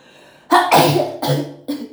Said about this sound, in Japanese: ちょっとね、くしゃみが。